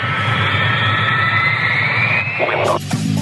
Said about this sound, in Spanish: Tripulación entrando en pista. Prepárense para el despegue.